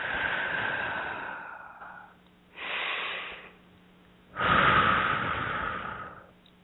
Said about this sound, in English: Please place your right hand on your heart. Take a couple nice deep breaths.